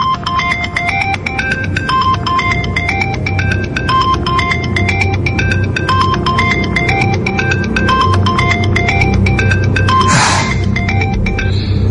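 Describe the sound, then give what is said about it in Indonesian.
Mobile phone ringtone sounding in a car speeding along an empty road: a loud electronic melody of short, high notes repeating steadily for the whole clip over a low rumble. “Hingga tiba-tiba handphoneku berbunyi lagi.”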